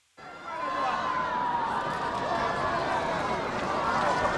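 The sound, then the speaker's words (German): A crowd cheers and shouts for a robot runner at a robot marathon in Beijing, a dense, steady din of many voices that holds at an even level throughout. “Läufer Nummer 1 pest allen davon. Er wird bejubelt auch von seinesgleichen beim Show-off-Roboter-Marathon in Peking.”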